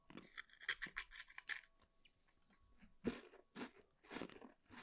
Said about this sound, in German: Diese Nüsse. Die sind so unfassbar lecker.